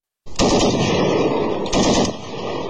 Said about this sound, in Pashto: دا څه موده وړاندې پر ډیوران کرخه د افغانستان او پاکستان د پولیساتو سرتیرو د ډزو د تبادله یو صحنه ده.